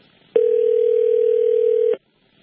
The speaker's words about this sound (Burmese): တယ်လီဖုန်းလိုင်းချသွားတယ်